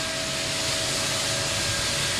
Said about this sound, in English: Yes, we do this with the sand blasting machine.